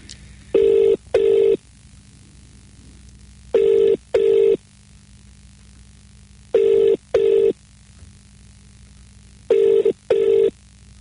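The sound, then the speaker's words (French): A telephone rings for an incoming call in four evenly spaced double rings, each a pair of short, bright, steady tones separated by longer silent gaps. “Donc, vous allez entendre le téléphone sonner très bientôt.”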